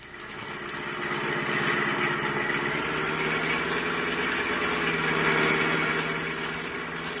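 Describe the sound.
A car engine hums as the car is driven fast, a steady mid-pitched drone that fades in gently, holds at a moderate level and tapers slightly at the end.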